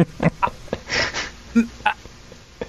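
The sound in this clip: Throat clearing from a tickle in the throat: a few short, rough, gravelly bursts with small pauses between them, moderately loud and without any talking.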